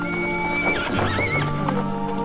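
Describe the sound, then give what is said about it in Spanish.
Horses whinny with a wavering, high neigh over steady hooves clip-clopping as they are driven along on a journey. The sounds are loud and continuous. “¡Apure esos caballos”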